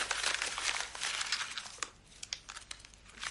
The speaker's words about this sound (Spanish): La deja y arruga el papel.